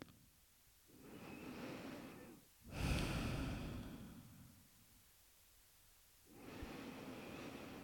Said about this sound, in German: Ein paar Mal tiefer ein- und ausatmen.